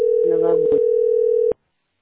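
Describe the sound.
A telephone ringing tone on an unanswered call: a steady mid-pitched tone holds for about a second and a half, then cuts off abruptly. Voices briefly overlap the tone.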